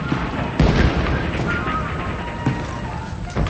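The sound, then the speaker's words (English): Cannons firing on a battlefield: a few heavy booming bursts rise out of a continuous, loud rumbling roar. “Cannons are blasting in the field across the road from the mansion.”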